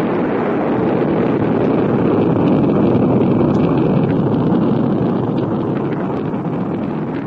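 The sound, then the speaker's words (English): A sleek white spacecraft interceptor blasts off with a loud, continuous, dense roar. The rumble holds steady throughout and eases slightly near the end, with no voices. “the Valaria Tracking Center, the sleek white SET interceptor blasts off for Starlab”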